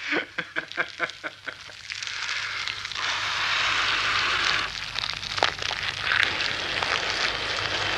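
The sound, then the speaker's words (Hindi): A fire of dry leaves burns with a steady, rushing hiss, scattered with sharp crackles and pops. “मैंने इसी मारे ऊप के सूखे पत्तों की आग जला ली थी।”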